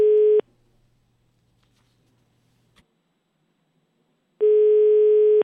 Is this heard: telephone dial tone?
yes

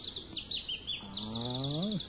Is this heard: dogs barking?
no

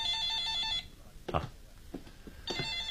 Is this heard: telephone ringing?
yes

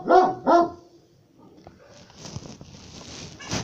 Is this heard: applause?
no

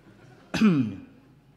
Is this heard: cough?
yes

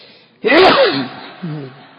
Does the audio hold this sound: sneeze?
yes

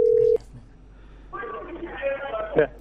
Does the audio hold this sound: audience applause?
no

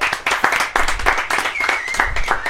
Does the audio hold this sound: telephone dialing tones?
no

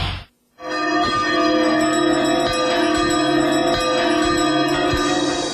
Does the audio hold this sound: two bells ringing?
yes

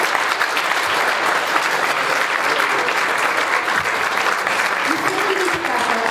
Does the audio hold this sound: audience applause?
yes

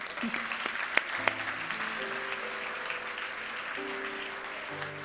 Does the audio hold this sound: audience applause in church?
yes

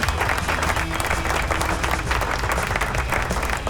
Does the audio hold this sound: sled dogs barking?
no

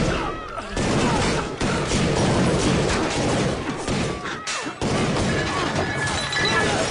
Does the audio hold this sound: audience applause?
no

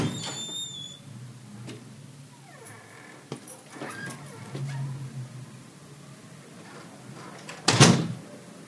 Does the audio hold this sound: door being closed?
yes

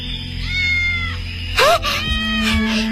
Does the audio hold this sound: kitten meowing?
yes

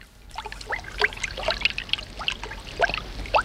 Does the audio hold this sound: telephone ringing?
no

